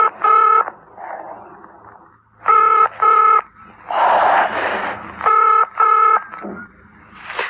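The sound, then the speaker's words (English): Someone dials a telephone that has no proper dialing tone. Short bursts of bright, buzzy electronic tone arrive mostly in pairs, with hissy noise between them. There is no talk. “Why can't I get a dialing tone? Come on, come on.”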